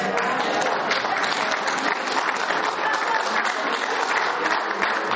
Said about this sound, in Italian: Applauso.